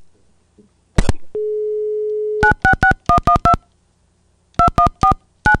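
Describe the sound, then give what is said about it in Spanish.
Telephone keypad dialing tones: after a click and a steady dial tone, many short, loud beeps follow in quick groups separated by brief pauses. “Bueno, ok, una vez más marcando.”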